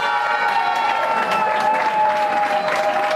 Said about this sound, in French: Acclamée par les autres participants, l'équipe victorieuse ne cache pas son émotion.